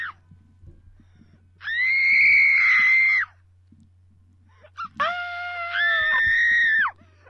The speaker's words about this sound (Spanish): ahora que hemos hecho el grito